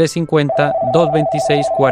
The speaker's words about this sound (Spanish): Tenemos una llamada.